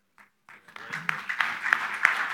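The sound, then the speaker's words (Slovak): Applause breaks out from an audience after a first answer in a discussion, swelling from a few scattered claps into fuller clapping, with voices mixed in and several sharper claps standing out. “Prvá odpoveď a hneď potlesk.”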